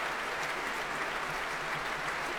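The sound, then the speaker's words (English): Applause from members of the São Paulo Symphony Orchestra as pianist Nelson Freire returns to the front of the platform: a soft, continuous patter of clapping with no break. “The members of the São Paulo Symphony Orchestra applauding Nelson Freire as he returns to the front of the platform.”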